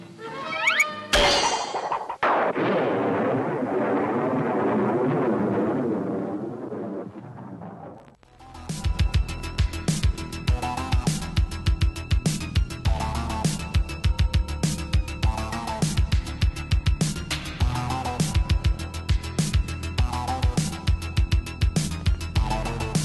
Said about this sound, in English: I know I'm gonna be sick. Too many bombs.